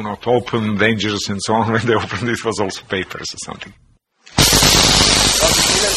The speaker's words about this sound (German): Und das ist also diese Funkenstrecke, die durchzündet.